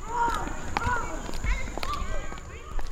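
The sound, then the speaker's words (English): Ambience recorded at Morris Grove Elementary school: overlapping children's voices and chatter with running footsteps and scattered thumps throughout, busy and steady in loudness. “The sounds you are hearing now were recorded at Morris Grove Elementary on September 13th, just hours before the second emergency caused the school system to lock their doors once again.”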